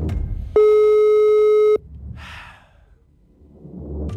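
An incoming call makes a phone ring: one steady electronic tone lasting a little over a second, clear and loud, then quieter soft breathy noises.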